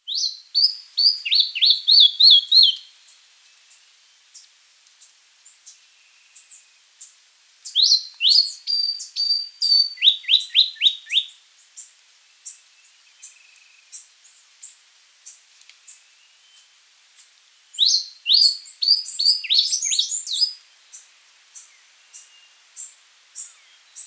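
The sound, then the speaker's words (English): Calls of a white-rimmed brush finch and a common bush tanager. Bursts of rapid, high, descending chirps alternate with a long series of thin, evenly spaced high call notes, with no other sounds. “white-rimmed brush finch, 1, with common bush tanager.”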